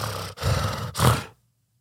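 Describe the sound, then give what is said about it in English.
A voice imitates the choking gasp for air of someone with sleep apnea: a few harsh, breathy, rasping bursts, the last one loudest, then silence. “It would just be like that gasp for air, and then he'd come back”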